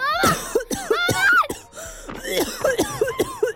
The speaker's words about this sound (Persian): غبار غلیظی از روی آجرا بلند میشه و تا زیر میز میرسه. به سرفه میافتم.